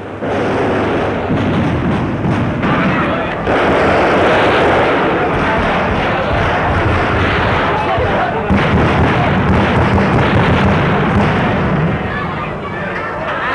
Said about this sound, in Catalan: Estem escoltant ja les últimes traques finals.